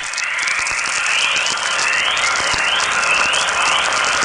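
Natural radio chorus from Earth's magnetic field, produced by solar particles striking it, heard as many overlapping rising chirps over a steady bright hiss that runs unbroken throughout.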